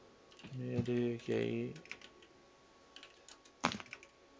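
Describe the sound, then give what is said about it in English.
Computer keyboard typing: a few scattered, sharp keystroke clicks in a short burst, following a brief voiced sound. “And I'm typing it out.”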